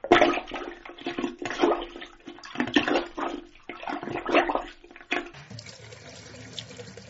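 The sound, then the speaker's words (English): Water drains from a bathtub after it has been unclogged with a plunger, a rushing, gurgling flow that surges in waves, then drops to a softer, thinner trickle near the end. “Yes, it is working. The tub is draining now.”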